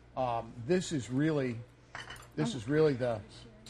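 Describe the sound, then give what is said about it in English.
A butter knife cuts through steak with gravy on a plate, giving light scrapes and clinks against the dish. People talk throughout, partly covering the cutting. “And I just cut that with a butter knife.”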